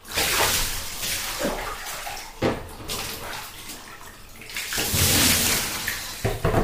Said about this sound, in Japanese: じゃあ、流していくよ。